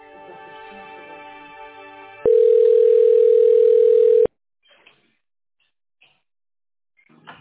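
A telephone tone plays while a call is transferred: a buzzing, multi-toned hum for about two seconds, then a louder, pure, steady tone for about two seconds, followed by near silence broken by a few faint clicks.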